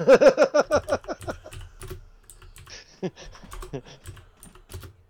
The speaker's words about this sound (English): I just typed in Indian tanks for firefighting and just scrolled down. I found it. I typed in Indian bladder, that didn't work.